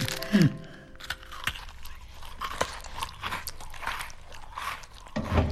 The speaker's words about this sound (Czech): A tyhle sušenky jsou taky báječné, vezmi si. Jenom to zamlouváš. Ale jednu bych snad ochutnat mohla.